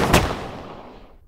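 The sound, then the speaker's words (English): A single gunshot from a gun: one sharp, loud blast that hits at once and trails off in a long, fading rumble. No voices are heard. “Then Heather let out the whole chamber straight to his skull.”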